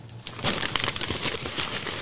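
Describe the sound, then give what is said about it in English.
An envelope is torn open with a dense, continuous crinkling and ripping of paper that holds steady and fairly faint for about two seconds. “That's me opening the envelope.”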